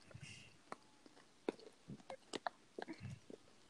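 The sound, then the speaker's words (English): Chomping and chewing on food by someone playing a video game, heard as a quiet series of irregular wet smacks, crunches and sharp mouth clicks, spaced unevenly with short pauses between bursts. “Can you tell by my chomping?”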